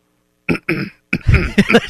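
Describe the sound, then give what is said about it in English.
Throat clearing from someone with something stuck in the throat: a few harsh, rasping bursts separated by brief pauses, ending in a longer rough, gravelly rumble. “that's that hair that's stuck in my throat. You know, I'm just, something stuck in my throat.”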